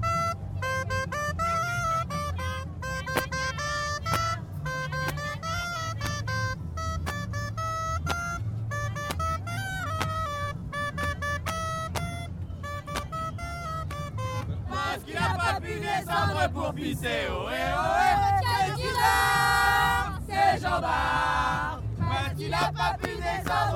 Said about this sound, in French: Mais justement, on va écouter un morceau de graille. Allez, un instrument catalan. On va écouter ça, c'est très joli. Donc on écoute la graille.